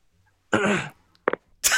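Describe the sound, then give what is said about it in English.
Throat clearing comes in a few short, rough bursts separated by brief silences, with the first the longest. “He even does the throat clearing.”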